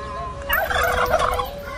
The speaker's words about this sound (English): No, no, I want this turkey right here.